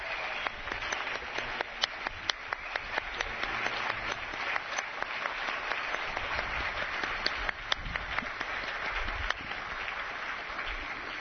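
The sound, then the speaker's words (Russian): An audience applauds its comrades with steady, dense clapping that keeps an even level, and many individual claps stand out throughout. “Ну, давайте похлопаем всем нашим товарищам.”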